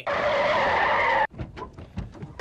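Tyres skid and screech as a taxi pulls up at night: a loud, sustained rush of noise holds steady for just over a second, then cuts off abruptly, followed by quieter scattered knocks and rustles.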